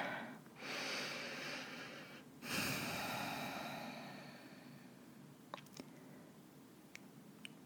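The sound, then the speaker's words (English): Slow, deep breaths in and out during a full-moon guided meditation: a few long, soft, airy rushes that swell and fade, followed by some faint clicks near the end. “take a few deep breaths in and out.”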